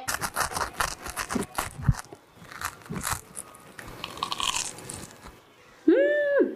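Biting and chewing freshly baked green pepper bread, heard as many crisp, crunchy bursts in an irregular rhythm that are fairly loud and close together, then stop near the end.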